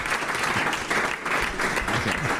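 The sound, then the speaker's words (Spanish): Audience applause for a restaurant kitchen team: thick, continuous clapping that holds at moderate loudness, with slight swells, across a couple of seconds and no talk over it. “Le vamos a dar un aplauso a Rubén porque se lo están cobrando a todo el equipo de cocina.”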